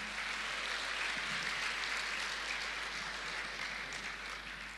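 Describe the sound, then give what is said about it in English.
Applause from a church audience welcoming guests as they come up to the front, a soft, steady wash of clapping that holds evenly throughout and eases a little near the end. “So as they come up, do you want to give them a hand and welcome them and honor them?”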